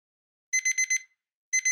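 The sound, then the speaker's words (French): An alarm clock rings with high electronic beeps in a quick burst of four, then a short silence before another burst begins and is cut off. “Pas de problème, j'ai un réveil.”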